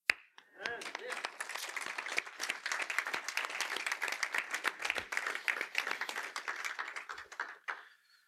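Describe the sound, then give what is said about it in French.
An audience applauding in church at Christmas. A brief noise opens it, then many hands break into a dense, crackling patter that holds steady for several seconds before tapering off. “Enfin Noël, Jésus est né, acclamons-le.”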